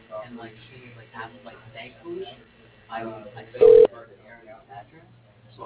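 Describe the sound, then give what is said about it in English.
A short telephone tone sounds once as a phone call is transferred to voicemail, cutting in between stretches of narrow, muffled phone-line talk. “Transfer you to his voicemail.”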